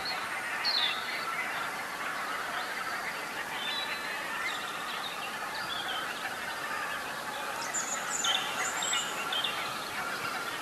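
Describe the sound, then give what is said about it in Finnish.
Faint song of a European robin in a dark forest at night beside Lake Hyvelä in Lohja, Finland. Short, high whistled phrases are scattered over a steady background hiss. “metsiemme soittorasia tervehtii meitä. Punarinta aloitti hetki sitten.”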